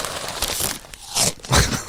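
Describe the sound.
Crunching of puffed rice eaten straight from the bag, mixed with crinkly rustling of the packaging: a continuous noisy crackle with a few louder crunchy bursts.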